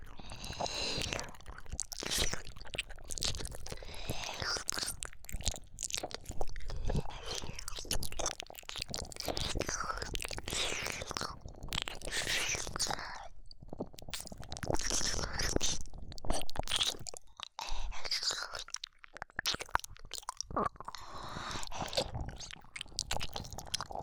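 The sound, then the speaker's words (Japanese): Wet ear-licking and mouth sounds, soft slurping, smacking and squishing clicks, continue close and quiet in a steady, irregular stream. “お耳ジュポジュポさせてください。舐めますね。”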